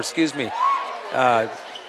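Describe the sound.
A basketball is dribbled on the court during a game. Faint bounces sit under a commentator's steady talk.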